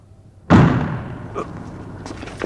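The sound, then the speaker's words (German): A gunshot in a radio play rings out as one loud, sudden boom. It trails off in a long, decaying rumble, followed by faint scattered knocks. “Sind die verrückt? Das ist ja nicht zu glauben. Die schießen ja im Ernst.”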